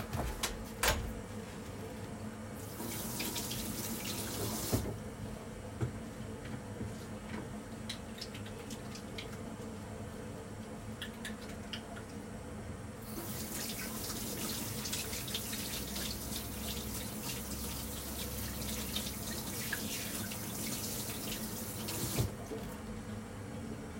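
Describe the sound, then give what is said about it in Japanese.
Tap water runs into a sink while hands are washed, a steady hissing rush that flows in two stretches, a short one early on and a longer one later, with quieter gaps between. “ちょっと手洗って、”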